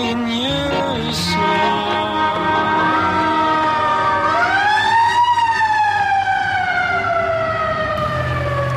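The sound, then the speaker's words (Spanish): An ambulance siren wails loudly and steadily, opening with short stepped tones before a long sweeping wail that climbs in pitch and then slowly falls, with a low vehicle rumble underneath. “Una ambulancia para casos importantes, muchacho.”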